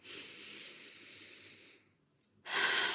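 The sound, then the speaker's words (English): A deep inhale and exhale during a calming breathing exercise: a soft, drawn-out breath in that fades into a short silence, then a sudden, louder rushing breath out. “just take a deep breath. So inhale”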